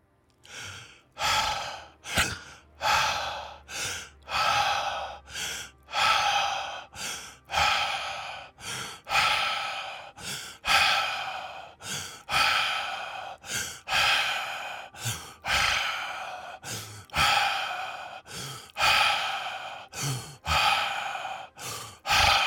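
Rapid, rhythmic breaths during a yoga breathing exercise, many short airy rushes in a steady pulse, each rising and falling in loudness, with no talking.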